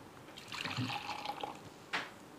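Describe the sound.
Butterfly pea flower water is poured, giving a faint trickling stream for about a second, then a short, brighter splash near the end.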